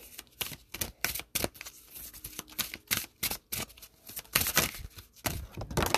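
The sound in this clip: Oracle cards from a whimsical mystical-style deck being shuffled, heard as many sharp papery slaps and flicks in an irregular, busy rhythm, with no voices.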